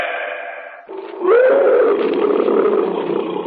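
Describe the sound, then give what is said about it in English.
A tiger roaring in the jungle: one loud, drawn-out growling call with a tone that rises and then falls, holding strong to the end after a quieter opening. “What's that? A cat. Probably a tiger somewhere in the jungle.”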